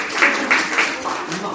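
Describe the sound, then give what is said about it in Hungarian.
Audience applause for the contestants of a word game at a Christian community gathering: a moderate wash of clapping that holds steady throughout, with voices heard over it. “Egy nagy tapsot kérünk a versenyzőknek.”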